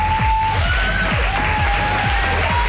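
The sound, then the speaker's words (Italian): An ovation at an awards event after a nominee is announced: loud, sustained clapping that fills the whole clip at a constant, high level. “Senti l'ovazione.”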